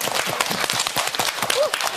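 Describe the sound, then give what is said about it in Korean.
Audience applause greets a host about to act as DJ at a music-hall event, a busy, fairly loud patter of many hands with a voice briefly heard through it. “박수.”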